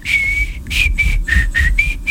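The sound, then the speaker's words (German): A person whistles a string of short, clear, high notes, the first held longer and the rest clipped and separated by brief gaps, with the pitch staying nearly level throughout. “so pfeifen uns rein in diesen Montag.”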